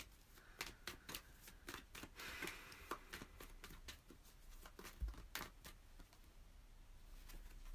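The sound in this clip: Tarot cards being shuffled and drawn from a deck make many faint, crisp flicks and soft paper snaps in an irregular run.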